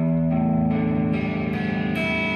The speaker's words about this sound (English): So this is the reason why you change it to distortion.